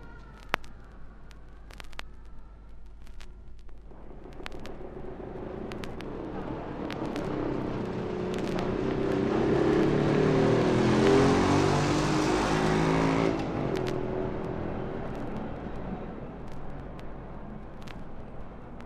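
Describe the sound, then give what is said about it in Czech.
Street sounds with a car passing by: a low engine and tyre rumble swells to a peak and then fades, over quiet background traffic noise, with a few sharp clicks early on. “A poslechneme si například zvuky z ulice.”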